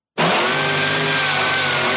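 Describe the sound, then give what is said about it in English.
A car engine revving very high starts abruptly after a brief silence and holds a loud, steady, buzzy whine for about two seconds without dropping off. “Must be like an Integra Type R. Look how high that thing revs.”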